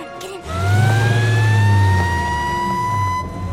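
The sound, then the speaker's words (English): An ambulance siren wails loudly as the vehicle pulls away, its tone rising slowly and steadily over a low, continuous engine rumble. “Gus pulls away in the ambulance while James, Kate, Wilhelmina, and Quinn get in a taxi”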